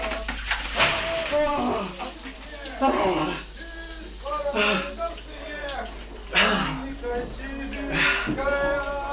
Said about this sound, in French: c'est le ice bucket suspendu à 2 mètres qui se remplit d'eau gelée.